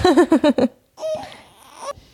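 Baby girl fussing and whining: a rapid run of short, rhythmic, wavering cries, then a brief pause and a longer, drawn-out, strained whimper.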